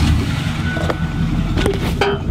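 A truck's engine rumbles steadily and loudly as passengers climb in, with a few brief knocks over the continuous drone.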